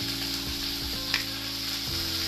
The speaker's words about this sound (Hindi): टमाटर डाल देंगे